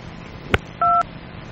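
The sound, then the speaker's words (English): Telephone keypad tones from many buttons pressed at once on an office phone system: a short blip, then one steady two-note beep lasting about a fifth of a second, over faint line hiss. “pressing all the buttons at once won't help”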